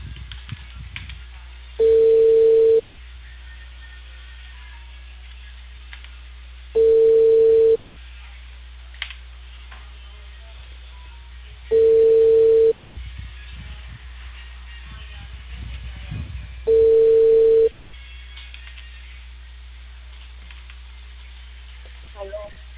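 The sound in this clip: Ringback tone of an outgoing phone call to a Peruvian cable company: four steady mid-pitched one-second tones, each about five seconds apart, with faint voices and line noise filling the gaps.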